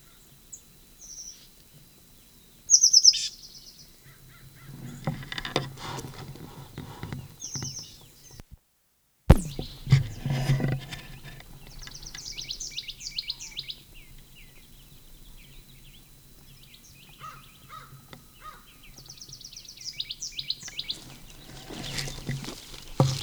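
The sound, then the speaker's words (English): Birdsong in Upper Moline Gulch: short, high, chirping phrases come in a few separate bursts, spaced by quiet stretches with faint low rustling between them. “Upper Gulch bird.”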